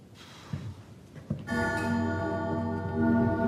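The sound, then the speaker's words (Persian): Clock ticking, with a few soft, widely spaced ticks that are then joined by a steady, sustained tonal ring that holds to the end. “همه جا صدای اون ساعت میاد.”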